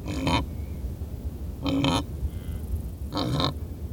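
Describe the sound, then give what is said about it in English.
Grunting calls from grazing wildebeest, three short, rough bursts spaced about a second and a half apart over a steady low rumble. “Mark recorded these wildebeest grazing, and you'll find his photos of the pair jousting at our website, loe.org.”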